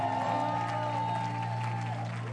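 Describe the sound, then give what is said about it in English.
A church audience claps together during a morning service, producing a steady, continuous wash of applause that holds at an even level from start to finish. “Come on, give another hand clap this morning.”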